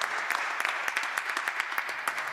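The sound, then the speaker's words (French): Audience applause at a concert, a steady patter of many hands clapping, with individual claps standing out crisply at a moderate level. “On peut applaudir Rebecca qui nous a fait la joie de chanter avec elle.”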